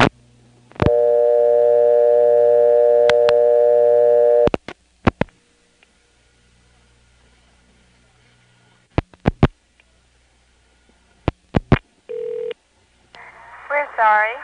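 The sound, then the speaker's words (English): On the Clayton telephone exchange, a steady dial tone gives way to sharp dialing clicks for 3 and then 11. Silent gaps separate the clicks, and a brief tone follows before a recorded voice begins. “And then if you dial 11, you get a recording done by the same lady as does the Clayton recordings. Here's 3 followed by 11 from Clayton.”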